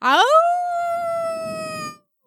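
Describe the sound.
A single wolf howl rises quickly to a clear, sustained tone and holds steady for nearly two seconds before cutting off abruptly, loud and alone with no talk.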